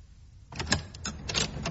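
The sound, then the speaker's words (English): A front door being opened, heard as a quick run of fairly loud mechanical clicks, knocks and rattles from the door hardware after a brief quiet start, with no talk. “Before I open the door would be a good idea.”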